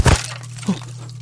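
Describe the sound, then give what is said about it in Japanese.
An object suddenly falls and breaks at a Shinto shrine: one sharp, loud crash at the very start, then a low, steady hum with a faint knock. “もうよくこういうことが。 はい、今みたいに急に物が落ちたりして。 日に日にひどくなってるようです。”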